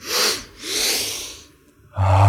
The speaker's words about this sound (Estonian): Ja siis ohkame häälega välja ja läheme. Sügavalt sisse.